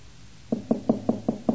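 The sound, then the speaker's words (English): Knocking on a door: six firm, dull knocks evenly spaced at a steady rhythm, heard alone. “Here's a knock on your door.”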